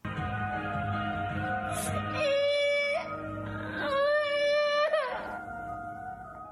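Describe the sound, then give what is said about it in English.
A baby watching a song in Frozen 2 wails in two long, high, sustained cries, the second longer and louder than the first, with quieter sound between and after them. “That was a full on wail from that baby who had to hide his little face in his mom's shoulder.”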